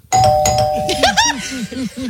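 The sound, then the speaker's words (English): A doorbell sound effect plays a clear, ringing chime tone that sustains for about a second, with voices overlapping it and continuing afterward. “I'll hit him with the doorbell.”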